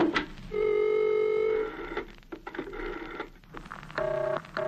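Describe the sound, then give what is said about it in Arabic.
Telephone ringing on a call to the speaking clock: a long steady ring tone, then a stretch of clicks and short broken tones, then another steady ring at a slightly different pitch. “أنا هطلب لك ساعة التليفون اللي أصدق مني ومنك علشان تصدق.”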